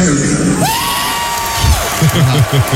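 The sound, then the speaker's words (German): Crowd cheering, whooping and yelling from the audience at an Iron Maiden rock concert on the Canadian side of Lake Ontario, a dense, steady roar with scattered shouts rising above it. “Wir sind hierher gekommen, indem wir den Lake Ontario überquert haben. Publikum hat es richtig gefeiert.”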